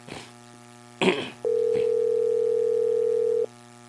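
A single long ringback tone sounds on an outgoing phone call to a town hall office at 8:22 in the morning, going unanswered. A brief burst of noise comes first, then a steady, even mid-pitched tone holds for about two seconds.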